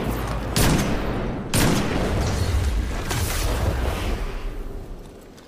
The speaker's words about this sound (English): How am I? I'm getting pulse rifled so hard.